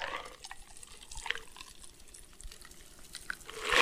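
Liquid pours into a glass holding long ice, a continuous, fairly faint trickle and splash with uneven bursts that grows louder near the end.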